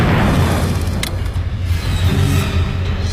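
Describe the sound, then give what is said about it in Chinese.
Massed naval gunfire as all of the American warships' guns fire skyward at aircraft at maximum rate, forming a loud, continuous barrage of heavy low booms that blur into a dense, rolling rumble throughout. “同时美军军舰所有火炮都朝着空中以最大射速开始射击，一时间万炮齐鸣，火光冲天。”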